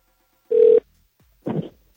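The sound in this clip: Telephone ring tone on an outgoing call placed during a call-in show: two short bursts, the first a steady mid-pitched tone, then a second after a gap of about half a second.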